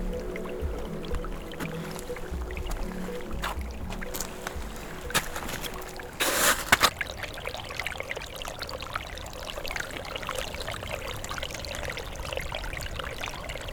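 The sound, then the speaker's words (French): Water gurgling beyond melting snow: a steady, low burbling and trickling wash runs throughout, with a brief louder splash near the middle. “Et au-delà du manteau neigeux, de l'eau qui glousse”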